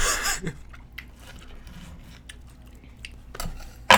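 A knife cuts a hot pepper, making soft, sparse clicks and snips at irregular intervals. The sounds are quiet, with a few slightly louder bursts near the start and the end.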